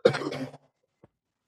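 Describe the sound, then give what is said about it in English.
A throat clearing to bring up phlegm, a rough, harsh burst lasting about half a second, then a very brief faint second rasp. No one talks over it. “You blowing your nose and then you gotta clear your throat. You got some phlegm back there, man.”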